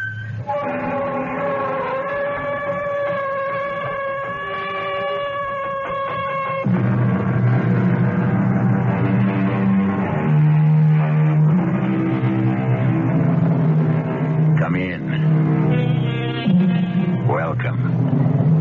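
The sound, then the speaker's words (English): A tractor trailer truck on the freeway as a radio drama sound effect: a sustained tonal opening gives way to a loud, heavy engine roar with deep rumble that continues steadily to the end. “How conscious all of us are who drive the freeways and the throughways of the behemoth of the road, the tractor trailer truck.”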